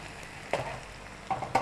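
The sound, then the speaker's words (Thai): Egg white and a stir-fry mixture frying in a pan give a soft, steady sizzle, with a few sharper scraping clicks of stirring over it. “เราจะทำแบบลักษณะให้ส่วนผสมเนี่ยติดอยู่กับไข่ขาวนะคะแล้วก็พยายามเคี่ยให้ส่วนของไข่ขาวเนี่ยอยู่ด้านข้างก่อนจนไข่ขาวใกล้สุก”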